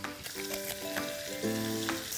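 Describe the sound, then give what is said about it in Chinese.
Steady sizzling of bamboo shoots frying in a pan with sugar and salt, for a stir-fry with cured pork, a continuous hiss lasting the whole clip with no talk over it. “我们就把竹笋倒进去，加点糖，加一点点盐，”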